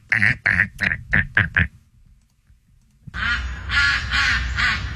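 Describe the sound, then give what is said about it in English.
Ducks quack in a quick run of six loud nasal calls. After a short pause, a longer, rougher stretch of sound follows. “I don't want ducks. I know. If I wanted ducks, I would have ducks.”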